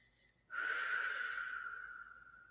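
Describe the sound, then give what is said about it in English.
A big deep breath begins abruptly after a short near-silence: a breathy rush carrying a thin whistling tone that holds steady and slowly fades over about two seconds. “Big deep breath.”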